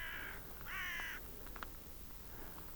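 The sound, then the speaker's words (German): A raven caws outdoors on a hiking loop through barren, open country: two harsh, harmonic croaks close together, then a fainter third call near the end. “Ein Rabe rabt.”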